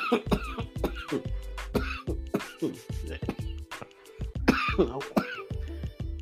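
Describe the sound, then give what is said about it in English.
Someone coughs again and again in a series of many short, harsh bursts, with some throat clearing mixed in. The bursts come in an uneven rhythm across the whole stretch. “I want to take these coughs out, but I might leave them in for authenticity.”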